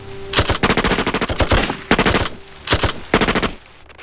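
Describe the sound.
Machine-gun fire in a battle: loud bursts of rapid shots, one long burst followed by three shorter ones, with brief gaps between them.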